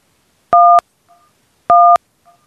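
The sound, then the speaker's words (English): Telephone keypad dialing into an automated phone menu: two loud, clean two-note beeps spaced about a second apart, each followed by a faint, short echo of the tone. “Just going to keep dialing.”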